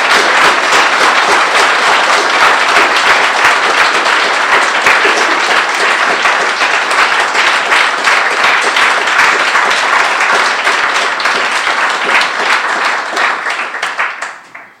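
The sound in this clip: Audience applause welcoming a speaker at a gathering: dense, loud clapping that holds steady for most of its length before tapering off quickly at the end.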